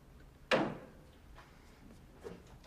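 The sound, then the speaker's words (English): A kitchen cupboard opens with one sharp knock, followed by a couple of faint knocks and shuffles as someone rummages inside, all fairly quiet. “Vincent rifles through the cupboard as the men wait tensely.”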